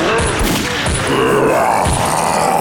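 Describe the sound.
Gunfire in a video game boss fight against a monster surrounded by lava: repeated heavy, booming shots in bursts, with a few dull thumps between them.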